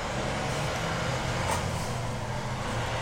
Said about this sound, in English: So, just leaving the gas station. Yeah, we're leaving the gas station, guys. It's ambient. We'll put this all in post. So that's what we're doing. We're talking as if no sound is going on,